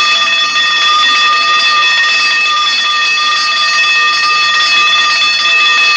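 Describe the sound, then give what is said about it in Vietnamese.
School lights-out bell ringing at 11 o'clock, a loud, continuous electric ring with steady high tones that hold unbroken throughout. “Cô vừa đến trường thì chuông báo tắt đèn lúc 11 giờ vang lên.”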